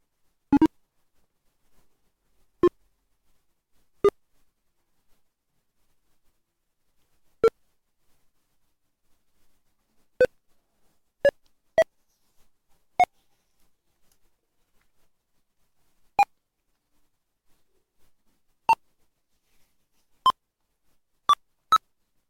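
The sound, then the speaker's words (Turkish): A screen reader's progress bar beeps while a PDF is being sent, giving thirteen short beeps at uneven intervals that climb gradually in pitch, each alone in near silence. “Aşama çubuğu güncellemelerini bit sesiyle bildir.”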